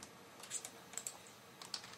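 Computer keyboard typing of song lyrics, a handful of soft, irregular key clicks, faint and on their own.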